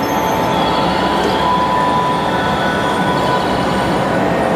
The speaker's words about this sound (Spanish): Las montañas también juegan un papel decisivo para nuestro próximo tren, ya que le dan su nombre.